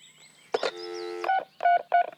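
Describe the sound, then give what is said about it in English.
Three loud touch-tone beeps from a telephone being dialed, only three digits pressed, the evenly spaced tones following a brief harmonic sound near the start. “if you're gonna fake dial, you gotta hit more than three numbers.”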